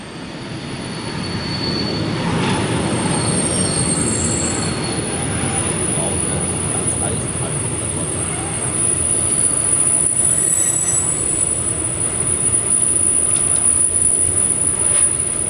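Train wheels squeal as a train leaves Trelleborg at night: a loud, continuous rolling rumble with thin, high metallic screeching riding steadily on top for the whole stretch.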